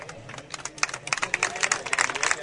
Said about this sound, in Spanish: Se marcha entre aplausos los jugadores que fueron titulares